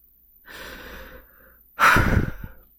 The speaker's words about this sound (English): So I'll pant.